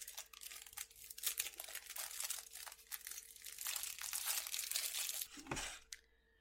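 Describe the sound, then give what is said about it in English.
Crinkling and tearing plastic wrapping on trading card packs, a dense, continuous rustle with sharper crackly bursts throughout that stops abruptly near the end, leaving a brief near-silence. No voices are heard. “I'll use a pen. That resolve died quickly. There. It's hard to open plastic sometimes.”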